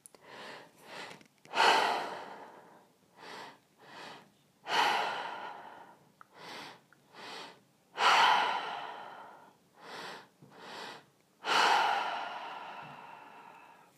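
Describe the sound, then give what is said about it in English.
Deep breathing in through the belly and chest and out through the mouth: four long, loud, airy exhalations, each separated by a pair of shorter, softer breaths, in a slow, steady rhythm. “Deep breath into the belly, deep breath into the chest, all in and out of the mouth. Keep using the breath.”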